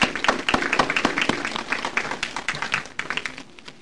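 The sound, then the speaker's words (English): Audience applause welcoming speakers at a presentation: dense, steady clapping from many hands that holds for several seconds and tapers slightly toward the end. “And I'd like to invite Diane Randall from the City of Lethbridge to commence the presentation. And I'd like you to give both speakers a warm welcome.”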